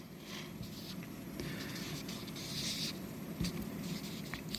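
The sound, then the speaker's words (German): Faint scratchy strokes come from plants being drawn on a board. The rubbing is soft and continuous, with a few slightly sharper scrapes here and there. “Ich zeichne links ein Gewächs und zeige, zeichne rechts ein Gewächs.”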